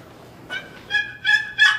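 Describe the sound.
Hen turkey yelps played on a turkey call on a competition stage at a national turkey-calling contest: a few short, nasal, raspy yelps with bright harmonics rising in strength, separated by brief gaps, heard alone.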